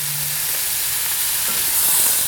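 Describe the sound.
Meat, including chops, frying in a pan gives off a loud, steady sizzle: a dense crackling hiss that stays even throughout, with no talking over it.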